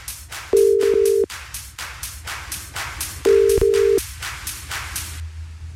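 Telephone ringback tone as a radio host calls a game winner: two long, steady, mid-pitched tones separated by a pause, heard over continuous background music.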